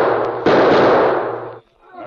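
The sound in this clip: A single loud, sharp gunshot in a radio drama set at the edge of a clearing, a broad blast that bursts out suddenly and then trails off in a long noisy decay before cutting away.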